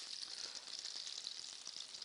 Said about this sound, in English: So I'm going to run those around the pan. Already they're starting to fire off. Fantastic smell. All my onions go in. Push those around the pan.